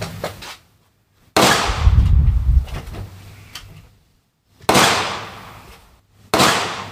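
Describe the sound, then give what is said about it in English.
Gunshots from a handgun firing a run of rounds from a magazine: three loud, sharp reports a second or more apart, each trailing a long echoing decay, after the tail of an earlier shot. “You do blow through 50 rounds pretty quick.”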